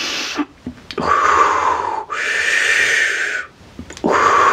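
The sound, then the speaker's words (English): Deep breaths are taken during a guided forgiveness meditation. Several long, airy inhales and exhales follow one another in a slow rhythm, loud and alone with no talking. “Nice deep breaths. Continue those breaths as I bring in the energy.”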